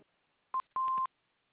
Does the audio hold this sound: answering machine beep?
yes